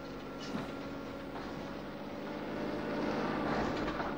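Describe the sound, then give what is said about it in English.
An old van approaches on a road, its engine a steady low drone with a tonal hum that grows gradually louder over the few seconds. “Later, an old van approaches.”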